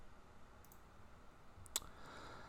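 A single faint mouse click while clicking through a web page: one short, sharp tick over quiet background hiss.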